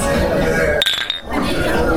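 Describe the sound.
Beer glasses clink together in a toast, a brief bright ringing chime near the middle that stands out against a dense, steady wash of background noise and voices.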